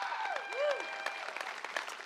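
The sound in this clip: Applause from a church audience at a Sunday morning service: steady clapping, with a couple of short, arching whistles near the start.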